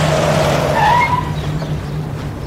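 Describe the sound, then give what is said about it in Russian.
A UAZ off-road car pulling up to a house, its engine a loud, steady rumble with a brief high tire squeal in the first second, the level easing slightly as the vehicle comes to a halt. “К дому Димы подъезжает УАЗик.”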